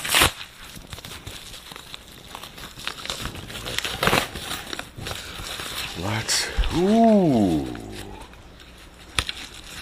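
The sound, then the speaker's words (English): Crackly crinkling and tearing as the edge of fairly heavy packaging is ripped open: a run of sharp rustling bursts, with a voice briefly heard near the end. “I know what I'll do. I'll just tear at the edge, like so.”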